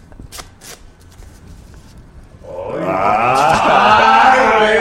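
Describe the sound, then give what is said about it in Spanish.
A magician shuffles a deck of playing cards: after a quiet stretch, a dense, continuous papery riffle starts abruptly and runs loud and steady for about two seconds. “a nosotros los magos nos gusta mezclar el paquete de cartas de esta manera.”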